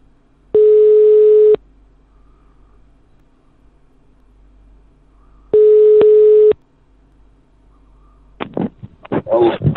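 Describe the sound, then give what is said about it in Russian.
Telephone line tones while calling a number: two long, steady, loud tones, each about a second, separated by a pause of several seconds. Voices come in at the end. “Так, набираю черту какому-то.”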